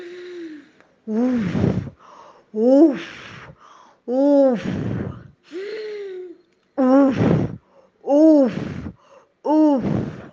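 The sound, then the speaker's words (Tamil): A voice imitates a wolf drawing deep breaths before blowing in a children's story. It gives a series of about eight loud, gasping, groaning inhales and snorts, each separated by a short pause. “மூச்சை இழுத்து இழுத்து பிடிச்சி”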